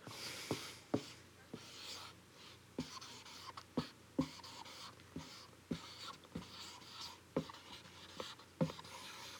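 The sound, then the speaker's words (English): Felt-tip squeaks of a very large Sharpie marker writing on a surface, a quick run of many short, rasping strokes with sharp little accents, each stroke bright and scratchy, heard alone without talk. “I started praying halfway through writing this that it was gonna fit.”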